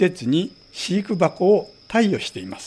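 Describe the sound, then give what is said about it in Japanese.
Bell crickets (suzumushi) chirp as a steady, high, thin ringing tone that runs faintly beneath a person talking. “今回はこのスズムシの鳴き声とともに伺っていくんですけれども、”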